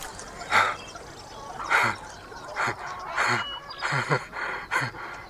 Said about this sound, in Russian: Видит взлетающих голубей.